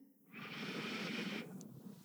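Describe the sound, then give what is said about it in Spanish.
A single long, deep inhalation during a guided breathing exercise: a steady, airy hiss that swells quickly, holds for about a second, then stops. “vamos a respirar juntos. Vamos a tomar una inhalación.”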